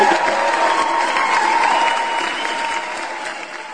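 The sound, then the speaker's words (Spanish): Sustained applause from a crowd: dense, even clapping that stays loud and continuous for the whole clip, with no voices above it. “pues un aplauso, por supuesto”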